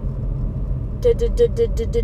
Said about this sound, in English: Right now I am driving.